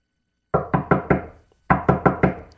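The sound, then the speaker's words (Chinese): Sharp knocking on the door of a narrow gate comes in two quick bursts of four even raps each, separated by a short pause, loud and clear with no voices. “于是蒙恩兴奋地敲了敲门”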